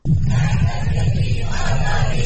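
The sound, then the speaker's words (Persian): Iranian protesters in Wellington, New Zealand, shout slogans on a rainy day: a dense, loud crowd of voices chanting together without pause. “تعداد قابل توجهی از ایرانیان ساکن ولینگتون، پایتخت نیوزیلند، با وجود هوای بارانی دست در دست هم در صفی طولانی فریاد زدند”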